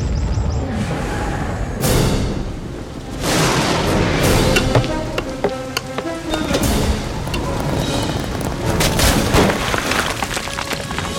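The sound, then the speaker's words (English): Thunder rumbles through a dense, steady roar of heavy rain or hail during a storm of hail and fire, loud throughout, with a few heavier bursts rising out of the noise. “and thunder and hail and fire darted to the ground.”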